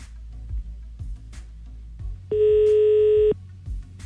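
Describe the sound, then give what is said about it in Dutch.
The ringing tone of an outgoing telephone call sounds as a single steady, mid-pitched beep lasting about one second. Soft, regular low thumps pulse underneath throughout. “Ah, hij gaat over. We bellen even met Howard, dames en heren. Als er iemand opneemt dan tenminste.”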